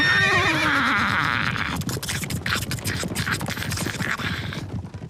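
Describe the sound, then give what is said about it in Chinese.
A yellow-dun horse with a spear-wielding rider charges into battle, giving a loud, wavering whinny that falls in pitch, followed by a few seconds of rough scuffing and hoof noise. “骑一匹黄骠马，早冲到阵前。四只马蹄扬起尘土，”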